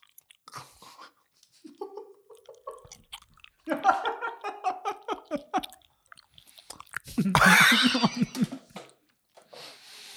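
Wet chewing and squishing of gelatinous chia seed jelly with artificial peach flavour, with many moist smacks and crunchy bites mixed with brief vocal murmurs.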